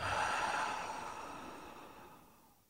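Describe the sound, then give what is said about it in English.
A single long, soft exhale during a guided breathing exercise, a breathy rush that starts fairly strong and steadily fades away over a couple of seconds. “Nice. Do that one more time. Breathe in and out.”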